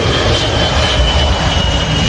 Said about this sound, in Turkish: ABD'nin Ohio eyaletinde bir özel jet iniş öncesi büyük bir sorun yaşadı. Uçağın ön iniş takımı açılmadı.